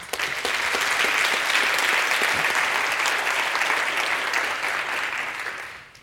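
Dense audience applause welcoming an Oxford scholar back to the lectern at a debate on engineering solar radiation, a steady loud wash of many hands that holds for several seconds and then fades out.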